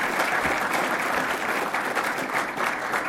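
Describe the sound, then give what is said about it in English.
An audience applauds to welcome the host's brother and his wife, a steady and dense wash of clapping that holds at an even level for the whole stretch with no pauses. “Would you give my brother and his wife a hand?”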